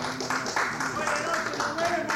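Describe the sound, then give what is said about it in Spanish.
An audience applauds at a radio station's anniversary celebration. The clapping is a steady wash of moderate loudness that runs the whole way through, with voices audible over it. “No sé por qué aplauden.”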